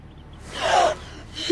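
Sharp gasps for air from people who had been lying motionless on grass: one loud, drawn gasp, then a shorter, fainter gasp at the very end.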